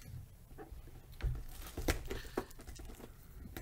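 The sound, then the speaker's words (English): Tape tearing and cardboard crinkling as taped-up product boxes are opened, quiet rustles broken by a few sharper rips near the middle. “That was good to Ben, but the sides of the boxes are still taped up. Gosh darn it.”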